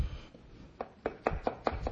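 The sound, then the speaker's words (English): Knife chopping a red onion: a quick, even series of crisp, short knocks against the board, bunched in the second half, with one faint tap earlier. “Then I'm cutting up. This is a red onion.”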